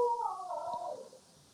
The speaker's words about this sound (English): I love the dog yelp at the end. I'm keeping that in.